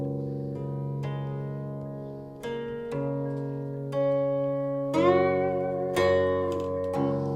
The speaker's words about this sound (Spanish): He querido traer el instrumento más representativo de la cultura china, que se llama guqin.